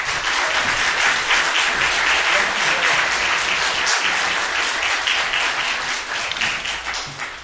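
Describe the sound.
Audience applause fills a church for its 100th anniversary as a guest speaker is welcomed to the pulpit: dense, steady clapping throughout, easing slightly toward the end.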